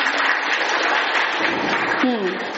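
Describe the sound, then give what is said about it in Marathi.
Students in a classroom clap for a classmate's correct answer, a dense, steady burst of many hands, with a voice breaking in near the end. “याच्यासाठी टाळ्या वाजवा सगळ्यांनी”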